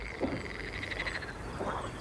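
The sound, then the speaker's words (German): Frogs croak in a pond at evening as a steady, pulsing chorus. A couple of lower, louder croaks stand out near the start and near the end. “als es Abend wird, da beginnen die Frösche im Teich ein richtiges Froschkonzert.”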